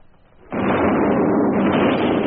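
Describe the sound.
A close artillery shell explosion from an Australian field regiment battery: a sudden loud blast that hits sharply and then holds as a dense, steady roar without fading until the end.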